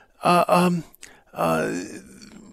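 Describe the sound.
Heavy, voiced breathing in a darkened room: a few deep, groaning breaths, two short ones close together, then a click and a longer, drawn-out breath, all fairly loud and heard alone.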